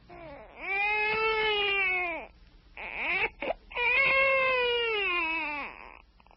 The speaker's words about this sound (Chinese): 他哭声这么大，恐怕不能够久藏这孩子了。